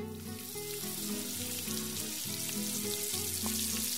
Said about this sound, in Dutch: Schep hier met een lepel een hoopje beslag in. Bak ze aan beide zijden goudbruin